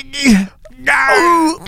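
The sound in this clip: A voice imitates childbirth with drawn-out wailing, groaning cries in two loud bursts, a shorter one and then a longer, sustained moan, separated by a brief pause.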